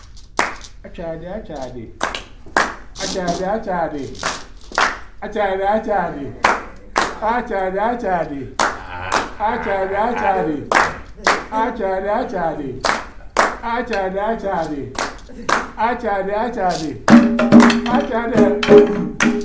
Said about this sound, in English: Now, when you do the clap, you in Ghana, for you to show off, you do